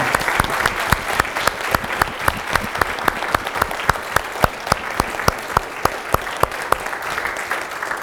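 Congregation applauding at a church confirmation service: sustained, dense clapping with a steady rhythmic beat running through it, staying even in loudness from start to finish.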